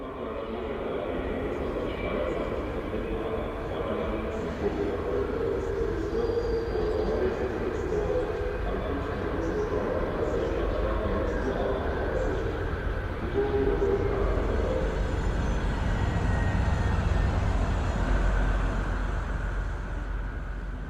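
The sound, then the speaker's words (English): Trains and railway station activity at the Cologne station, captured by a network of microphones: a steady, loud low rumble runs throughout, with fainter higher tones layered above it. “in Cologne helping me set up a system of microphones in the Cologne station so that I could make this large-scale, kind of real-time sound rendering of that station that I could send to Berlin.”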